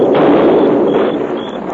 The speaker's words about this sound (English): we took some blasting powder and set a charge under those rocks. You blocked up the pass into the ravine. Now we're blasting it open again.